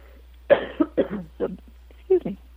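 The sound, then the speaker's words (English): Coughing from a catch in the throat, heard as a few short, throaty coughs separated by brief pauses over a steady low hum. “A little catch in my throat.”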